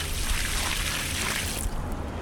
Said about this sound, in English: pours a bucket of water on a parking lot made of Ecocreto.